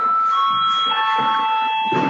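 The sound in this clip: A bell rung in a parliament chamber before a vote, a sustained, steady ringing tone held through the whole clip with a faint murmur beneath it.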